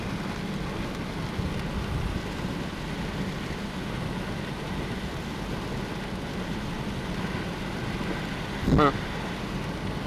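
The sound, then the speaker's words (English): Steady rain falls after an intense storm in the mountains, a constant dense hiss of moderate loudness that runs throughout, with one brief louder swell near the end. “That was a very intense storm. It's looking a little clear now. Still raining”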